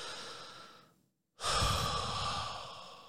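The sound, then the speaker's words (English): A deep breath in and out: a long airy breath that fades away, a brief moment of silence, then a louder, fuller breath that slowly trails off. “you have to take a deep breath anyway, right?”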